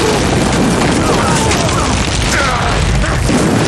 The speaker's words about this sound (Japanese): 砲兵に命令を伝えろ。敵を全て爆破させろ。